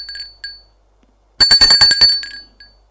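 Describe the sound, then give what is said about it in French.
An apartment doorbell gives a couple of brief high chimes, then a rapid, bright metallic ringing burst lasting under a second. There are no voices. “Arrivé à l'étage, il sonne à l'appartement.”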